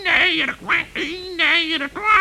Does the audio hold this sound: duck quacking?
yes